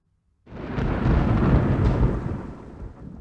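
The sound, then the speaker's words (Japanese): A roll of thunder breaks in after a moment of silence, a deep broad rumble that swells, holds for about two seconds and then slowly fades, heard alone with no voices. “違うよ、雷だよ。 え、雷？ 雨が降ってくるかもしれないね。”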